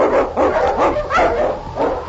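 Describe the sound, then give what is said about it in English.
A husky sled dog barks in a quick series of loud, sharp barks with short yips between them, heard alone without talk. “The Wonder Dog King, swiftest and strongest of Eskimo League dogs, blazes the trail through storm and snow for Sergeant Preston as he meets the Challenge of the Yukon.”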